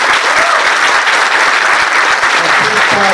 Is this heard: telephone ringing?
no